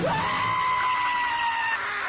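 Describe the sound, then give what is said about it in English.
Screaming, as of people terrified by a giant alien appearing in the sky: one sustained, piercing high shriek that rises sharply at the start, then holds loud and steady for about two seconds. “No, it's definitely a giant alien. Otherwise, they wouldn't be screaming.”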